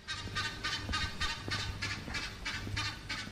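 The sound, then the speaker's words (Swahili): Birds call around a lakeside ranch hotel in a rapid, steady series of many harsh, repeated notes with an even rhythm and no voices. “Hoteli ya Ranch on the Lake inajulikana sana kutokana na aina hizi nyingi za ndege wanaoimba kila wakati.”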